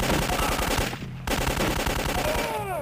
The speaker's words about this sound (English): I don't know if we should be shooting people like this.